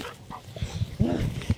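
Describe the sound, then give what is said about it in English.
Dogs running around outdoors at a planted gully site give a few short yips and whimpers, brief and moderately loud, over a soft outdoor background. “So the dogs seem pretty happy running around in this.”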